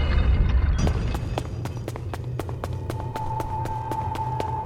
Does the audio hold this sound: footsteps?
yes